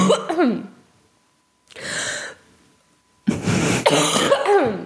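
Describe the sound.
One person coughs and clears their throat in three separate bursts with silent pauses between them. The raspy throat clearing and the harsh, loud cough stand alone with no talk.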